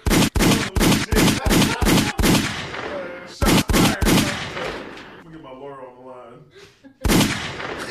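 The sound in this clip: Loud gunshots crack in a rapid burst of sharp reports, then a short pause and a few more quick shots. After a stretch with voices in between, one last shot rings out.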